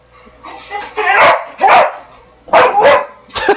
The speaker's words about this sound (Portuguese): O cachorro tá insano aqui.